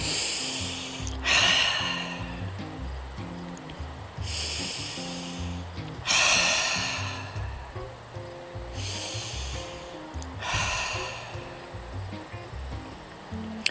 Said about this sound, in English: So let's begin. Take three cleansing breaths.